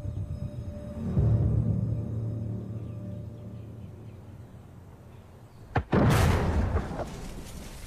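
An artillery gun of the kind used against castles fires at a van: a short crack, then one loud, deep blast that rolls on into a fading, rumbling roar over a steady low background.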